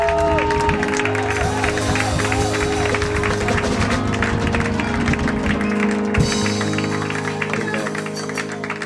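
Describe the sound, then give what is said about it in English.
A church audience claps hands in a standing ovation to welcome their leader, a dense and continuous wash of applause with crowd voices, staying loud before easing slightly near the end. “With a hand clap offering and a standing ovation as unto the Lord, let's welcome our Papa”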